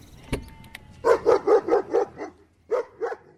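A dog barks in a quick run of sharp, evenly spaced barks, pauses briefly, then gives two more, after a faint click at the start.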